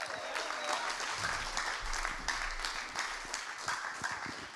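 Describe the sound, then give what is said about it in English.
A church audience applauds to welcome a speaker to the stage, many hands clapping in a steady, dense wash that stays at an even, fairly soft level throughout. “Can I encourage you to put your hands together as we welcome Matt to the stage.”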